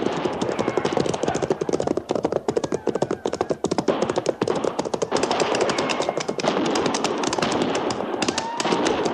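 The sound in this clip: Horses gallop off as riders mount and ride away, a dense, rapid clatter of hoofbeats that runs without pause throughout, loud and busy with no clear gaps.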